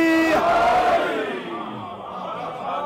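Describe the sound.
A crowd shouts the Naara-e-Haidari slogan in unison, one loud sustained roar of many voices that eases slightly as it goes on.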